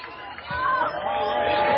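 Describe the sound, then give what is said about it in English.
Baseball crowd at Tiger Field cheering after a strikeout, a broad roar of many voices that swells about half a second in and stays loud and steady to the end. “Swing and a miss, and he's out of there. And the crowd goes wild.”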